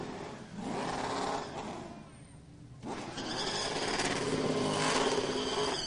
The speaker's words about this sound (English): That is the sound of one Ford celebrating in victory lane here tonight.